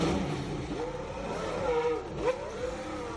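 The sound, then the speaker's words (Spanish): Ferrari Formula 1 race car engine during testing at the Fiorano circuit: a fairly faint, continuous whining drone whose pitch climbs, dips and climbs again as the engine revs. “Es un día histórico para Carlos Sainz, a 2 meses del inicio del Mundial de Fórmula 1, hoy por fin se ha subido a un Ferrari.”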